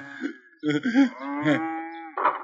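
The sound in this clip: Cattle moo at a cattle farm in the lower part of a city. Several drawn-out, harmonic lowing calls of varying length follow one another with short gaps between them.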